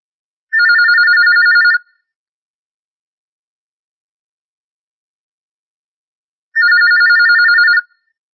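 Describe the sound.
A telephone rings for an incoming call-in question to a religious question-and-answer program, giving two loud electronic trilling bursts of about a second each, separated by several seconds of silence.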